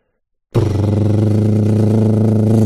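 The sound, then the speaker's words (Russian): A powerful motorcycle engine bursts abruptly into life with a deep, bass-heavy roar, then holds a steady, loud, throbbing note with a fast, even pulse and no other sounds. “Нет, басовитый звук мощного мотоциклетного мотора не подходит.”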